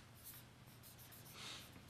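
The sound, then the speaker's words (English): Writing on a board: faint, soft scratching strokes in short bursts with brief gaps between them, heard alone without talk. “Let me write a couple of things on the board here.”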